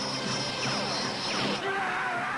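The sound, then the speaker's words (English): Cartoon sound effects from Thundarr the Barbarian: a roar from Ookla the Mok and the humming sun sword. Gliding, sweeping electronic tones ride over a loud, steady wash of noise, with a sudden crash-like change near the end. “That was Ookla there, that sound. He is Thundar, the Barbarian. And did you hear what sounded like a lightsaber at the end of it? That's the sun sword? Yeah, that is the sun sword.”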